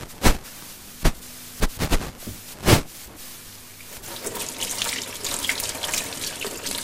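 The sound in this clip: Something is washed under a running tap in a sink. A few sharp, splashy knocks come first, then a steady hiss of flowing water takes over for the second half.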